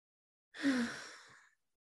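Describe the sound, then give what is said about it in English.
A single deep breath, drawn in and let out slowly during a guided group relaxation exercise. It is one long, soft, breathy exhale lasting about a second, heard alone with no talk. “And let's all just take a deep breath together.”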